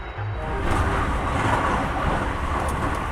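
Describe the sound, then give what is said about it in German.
A night train travelling to Rome rumbles steadily from inside the carriage, a loud, dense, continuous roar of wheels and motion that holds an even level throughout after a slightly quieter start. “Ich sitze im Nachtzug, fahre nach Rom.”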